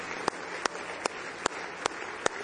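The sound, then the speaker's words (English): Hand claps of praise from a church audience at a morning camp-meeting service: six sharp claps land on an even beat, about every 0.4 seconds, over a low steady background. “A good hand clap of praise this morning.”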